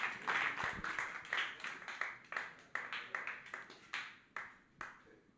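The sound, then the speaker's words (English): Clapping from an open mic audience welcomes a comedian to the stage, heard as many distinct, sharp hand claps that start fairly full and then thin out into scattered, separate claps. “Big round of applause for Mr. Patrick Jerome, ladies and gentlemen. Give it to him.”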